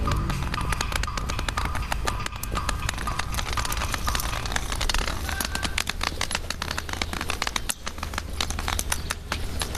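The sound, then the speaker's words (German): A walking stick taps over and over as someone walks in Dresden. The sharp, irregular clicks come quickly and keep going the whole time. “Wir zwei geben nicht nur ein schönes Bild ab, man hört uns auch gut. Also dein Stock macht schöne Geräusche.”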